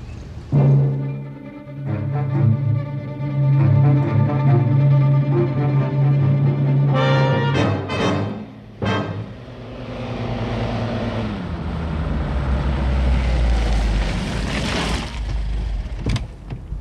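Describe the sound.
A car drives on city streets, its engine holding a steady humming drone. A few sharp clunks follow, and then a louder, broad rushing road noise builds and carries on to the end.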